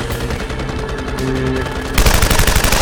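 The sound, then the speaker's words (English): Gunfire is aimed at an incoming aircraft, heard as a dense, continuous rattle of rapid shots. The rattle suddenly grows louder and harsher near the end. “They're aimed at us! Jesus Christ! They shoot at random aircraft coming in? They shoot at them?”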